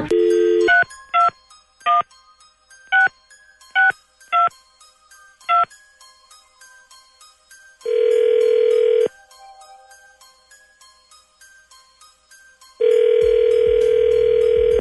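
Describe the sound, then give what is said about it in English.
A telephone is dialed, then rings: a string of short, evenly pitched keypad beeps, followed by two long, steady ringing tones separated by a quiet gap. “Okay, well, let's find out. Dialing at random.”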